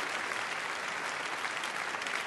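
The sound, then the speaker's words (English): Audience applause at the end of the first round of a formal debate on a UN membership motion: dense, steady clapping from many hands at an even, moderately loud level, with no talk. “And you can do one of those applause moments if you want.”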